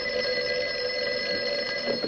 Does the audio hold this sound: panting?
no